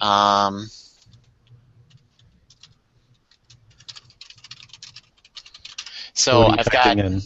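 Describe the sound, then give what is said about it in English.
Keys clatter as an email address is typed on a computer keyboard, a run of quick, irregular light clicks lasting several seconds, with a person talking just before and just after the typing. “I just typed in the email address for the group that this would go to.”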